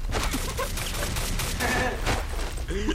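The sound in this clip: Rapid gunfire in a video game: many sharp shots crackle continuously in a dense, steady barrage at an even loudness throughout.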